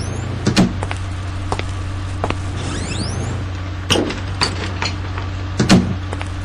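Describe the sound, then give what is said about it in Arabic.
Car doors and a trunk are opened, giving a few sharp clunks and latch clicks spread out over a steady low hum, with a brief squeaky sweep in between. “افتح لي الباب ونزل لي الكاروس من الشنطة”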